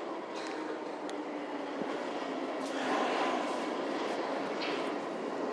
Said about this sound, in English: Right, train coming, I think this could be an Ealing, so we might get this.